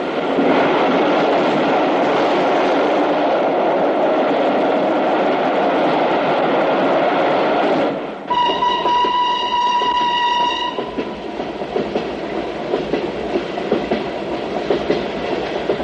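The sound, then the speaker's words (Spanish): A train runs along tracks beside the sea with a loud, steady rumble throughout, broken partway through by one sustained high horn or whistle blast lasting a couple of seconds before the rolling noise carries on alone. “Más tarde circula por unas vías pegadas al mar.”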